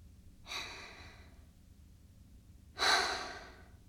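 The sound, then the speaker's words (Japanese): Deep breathing by a person following a paced breathing exercise: two separate, drawn-out breaths with soft airy noise, each swelling and fading, faint and alone with quiet between them. “私に合わせて3回深呼吸して。”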